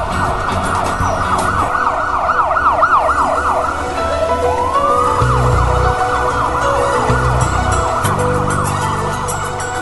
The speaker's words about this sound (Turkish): Bu ambulans bizim için çocuklar.